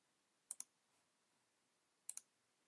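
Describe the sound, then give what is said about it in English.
A computer mouse clicks on an OK button, with two sharp double-click pairs separated by about a second and a half of silence and a very faint tick between them. “Okay, so once we have all that in place, we'll just click OK.”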